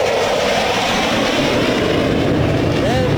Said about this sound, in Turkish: yüksek süratle bize doğru geliyor şu anda. Solo Türk karşısında işte ifade ettiğim gibi 3 metrede iniş takımlarını toplayıp 10 metrede terse geçiyor.